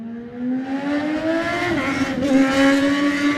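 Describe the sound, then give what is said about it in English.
Supersport race motorcycles accelerate away from the start line. A loud, continuous engine note climbs in pitch, dips briefly partway through, then climbs again, with no voices. “we're ready to go with the Glover Law Super Sport race, and away we go.”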